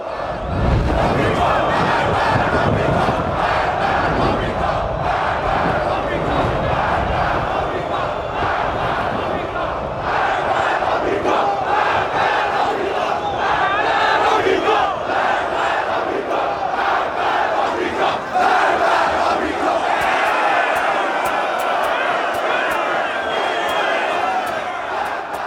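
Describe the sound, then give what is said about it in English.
A crowd chants in a film scene that builds toward raiding an embassy: many voices shout in unison, loud and sustained throughout, with a pulsing rhythmic texture. “this is a really long sequence that they're chanting, but it builds up and actually grows into them raiding the embassy”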